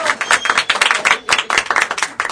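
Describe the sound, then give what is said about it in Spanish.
Applause for a listener who has won a prize on a radio program: a brief, dense patter of hand claps from a small group, sharp and irregular, fairly loud, with no clear talking. “Un aplauso para Agostina.”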